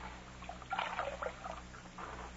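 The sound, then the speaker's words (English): Water poured to wet a scarf before washing a bullet wound: a brief, soft trickle and splash, quiet overall, swelling for a moment and then tapering off. “Let me wash his wound, take a look at it. I'll wet the scarf.”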